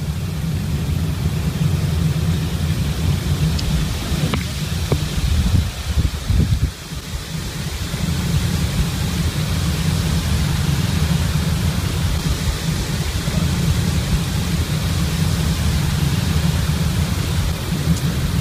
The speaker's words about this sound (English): But if you hear that roaring sound, like a train or a jet, that's wind through the tower.